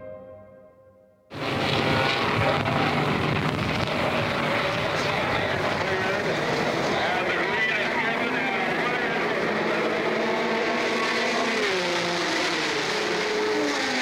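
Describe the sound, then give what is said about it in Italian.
Race cars roar away at the start of a sports car race at Sebring, with a Ferrari, number 19, leading Porsche, Ferrari and Alfa Romeo entries. After a quiet first second, a dense, loud engine roar sets in abruptly and holds steady throughout. “Ferrari number 19 leads the field as the race gets underway. Behind him, Porsche, Ferrari, Alfa Romeo.”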